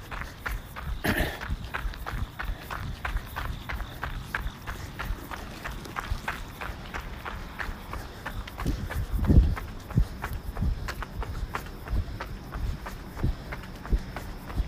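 Footsteps crossing a bridge in York early in the morning, a brisk, steady rhythm of many light steps over a continuous low background.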